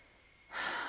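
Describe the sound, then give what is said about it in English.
A single breath from a guided breathing exercise, in through the nose and out through the mouth: quiet at first, then a louder, airy rush that sustains to the end. “Inhale through your nose and out through your mouth.”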